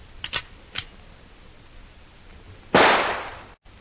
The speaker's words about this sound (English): Here is the rifle, Hannah. Let me have it. This will be a little warning for them. A taste of what they are to get later.